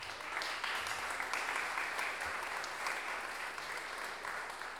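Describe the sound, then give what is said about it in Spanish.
Applause at a traditional Chilean improvised-verse contest honouring a late folk poet, a fairly faint but continuous patter of many hands clapping, steady throughout with a slight fade at the end. “Un aplauso también hacia el cielo al gran Pancho Astorga.”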